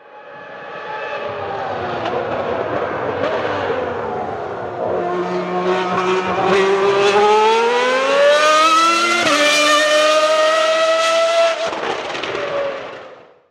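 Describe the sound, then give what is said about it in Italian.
Engine note of a 1995 Ferrari with a naturally aspirated V12, revving hard and loud on its own, its pitch climbing in a long rising sweep with a brief break midway before cutting off near the end. “questa invece è una Ferrari V12 aspirata del 95.”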